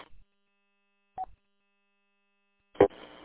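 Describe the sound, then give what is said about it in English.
DTMF telephone dialing tones sound as a few brief, separate beeps over silence, the last one louder and followed by a faint hiss. “it does show your DTMF tones in the asterisk log”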